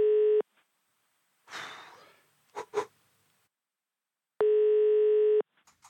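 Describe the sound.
Ringback tones of an outgoing phone call: two steady, buzzing tones several seconds apart. The first is cut short at the start and the second lasts about a second, with a soft rustle and two sharp clicks between them.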